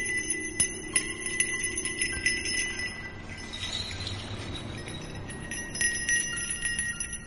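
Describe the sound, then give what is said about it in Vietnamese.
A small hand bell is shaken quickly during a spirit-medium exorcism ritual. Bright, high jingling rings come in rapid bursts, pause briefly under a soft hiss, then return near the end. “Cô Thao nhanh thoăn thoắt lắc cái chuông thêm một lần nữa”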